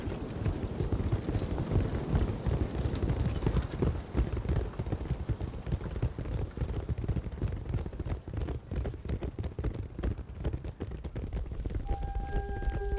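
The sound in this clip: Horses' hooves clip-clopping in the desert as two riders head off in different directions, a dense, steady clatter of rapid hoofbeats that runs throughout, with a faint sustained tone entering at the very end.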